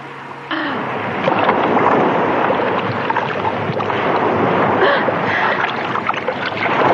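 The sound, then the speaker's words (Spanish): Legs kick to swim toward the shore, a loud, steady churning splash of water that continues without pause throughout. “Pues yo creo que mejor voy empezando a patalear, porque si no, nunca voy a llegar a la orilla.”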